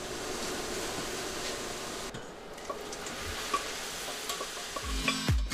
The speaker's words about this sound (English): The ground lamb is seared to bring out its flavor.